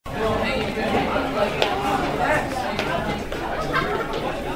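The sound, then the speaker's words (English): A crowd of students chatters in the hallways of Sacred Heart High School in Yonkers between classes, a steady babble of many overlapping voices with occasional louder calls. “That's the sound of the hallways at Sacred Heart High School here in Yonkers between classes.”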